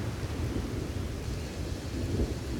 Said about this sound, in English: And as it goes past that far point, it starts to release its energy. And you can hear the thunder